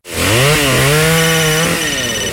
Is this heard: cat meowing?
no